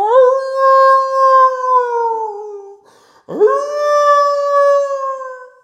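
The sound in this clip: Women in a comedy show audience howling like wolves: two long, sustained howls, each slowly sinking in pitch. The second begins with a quick upward swoop after a brief gap.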